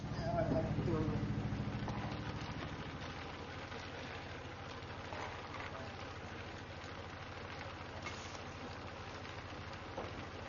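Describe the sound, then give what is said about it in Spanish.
The engine of a cooperative boat drones low and steady as it carries the day's açaí harvest to a neighbouring village. The hum is a little louder at the start, then settles into a quieter, even throb. “El barco de la cooperativa transporta la cosecha del día al pueblo vecino.”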